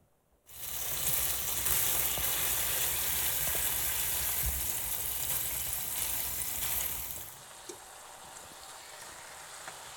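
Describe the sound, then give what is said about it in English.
Bacon strips fry in olive oil in a pan, giving a loud, steady hiss of sizzling and crackling that starts abruptly after a brief quiet moment and drops to a softer sizzle near the end. “so I got a little olive oil in there. And we'll see if that's enough. I think it will be, but I'm going to put some strips of bacon in here.”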